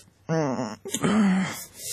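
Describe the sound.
A person moans and whimpers in their sleep during a bad dream: two long, voiced, wailing cries separated by a short break, the second one lower and drawn out.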